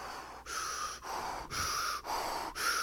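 Slow, paced breathing from a breathing exercise, heard alone as a steady series of about six airy breaths. Each lasts roughly half a second and is separated by brief dips, with a fairly even rhythm and moderate loudness.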